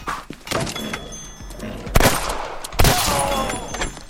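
Video game gunfire with a few sharp blasts spread out unevenly, two of them much louder cracks with short, ringing tails, over a low background rumble.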